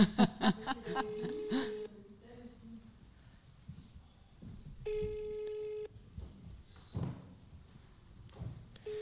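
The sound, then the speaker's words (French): Telephone ringback tone for an unanswered call: a steady ringing burst of about one second, with an earlier tonal stretch, heard between voices and soft chuckling. “c'est qui cette Monique qu'ils essayent d'appeler?”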